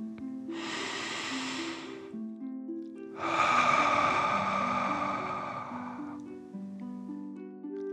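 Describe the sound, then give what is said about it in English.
A deep breath in and out for a children's bedtime guided meditation: a soft, airy inhale is followed after a short pause by a longer, slightly louder exhale, both over gentle, steady background music tones. “Last one, fill up your chest and belly. Deep breath in and out.”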